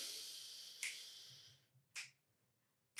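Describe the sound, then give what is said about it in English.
Finger snaps keep count during a relaxed breathing exercise: three sharp, crisp snaps spaced roughly a second apart, alone against a quiet background. “I'll snap to keep count.”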